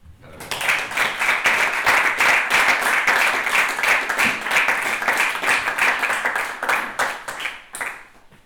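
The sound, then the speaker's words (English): Strong applause marking the start of a Chilean section of an event, dense and continuous clapping that holds steady for several seconds before thinning out at the end. “fort aplaudiment per l'inici de la secció chilena.”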